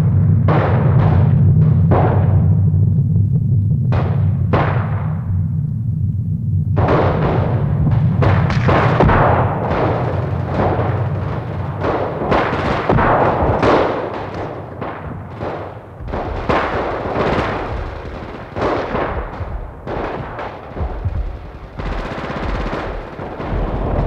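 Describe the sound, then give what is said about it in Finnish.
A volley of gunfire in a wartime battle on the front lines: many sharp, rapid shots crackle loudly and densely, over a steady low rumble during the first several seconds. “Ryhmätulta, ampukaa!”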